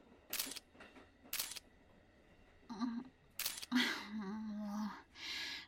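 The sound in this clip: Camera shutter firing for photos: three crisp, loud clicks spaced roughly a second or two apart, mixed with breathy vocal sounds.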